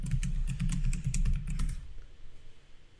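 A password is typed on a computer keyboard in a rapid, busy run of keystroke clicks over a low hum. The typing stops partway through, leaving only faint background noise.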